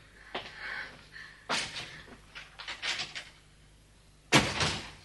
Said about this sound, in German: Warum öffnest du dann nicht die Tür? Was? Ja, bin schon dabei.